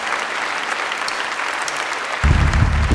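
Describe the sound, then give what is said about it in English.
A church audience claps as an offering of thanks during a worship service: many hands in a dense, sustained patter that swells louder toward the end. “Thank the Lord with a clap offering, would you?”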